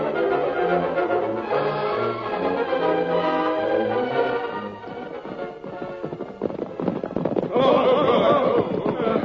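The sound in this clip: Gunfire in a western radio drama shootout: many sharp cracks and bangs break out over music, growing denser and louder toward the end.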